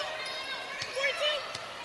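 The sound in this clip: Basketball dribbled on the court during a women's college game, a few dull, evenly spaced thumps beneath a commentator's steady play-by-play voice.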